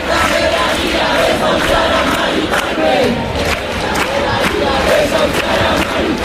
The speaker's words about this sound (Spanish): Se están intercambiando cánticos con el grupo que sí que está dentro de ese cordón policial, frente al portal donde me encuentro yo también. Escuchamos esos cánticos de apoyo a Mari Carmen.